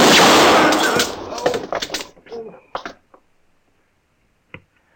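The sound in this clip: A gunshot strikes a gun held in someone's hand. A loud blast rings out and decays, followed by several sharp clattering knocks that fade into quiet, then one short knock near the end.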